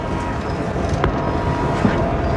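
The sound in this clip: Steady rumbling noise of a passenger train traveling due east at about 70 miles an hour. The dense, continuous rumble has no distinct events and stays even in loudness throughout.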